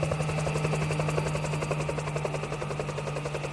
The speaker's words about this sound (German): 5 Tage nach dem Übergriff kommt schließlich eine Staatssekretärin vom Bergbauministerium mit schwer bewaffneter Polizei in einem Hubschrauber über die 7 Berge nach Junin geflogen.